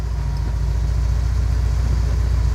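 A car engine runs steadily while driving to a petrol station, a constant low rumbling drone with no other sounds.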